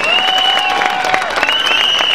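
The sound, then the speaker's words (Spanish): Enthusiastic crowd applause at an anti-poverty rally in Madrid. It is loud, continuous clapping with sustained high tones running through it. “El público aplaude con entusiasmo.”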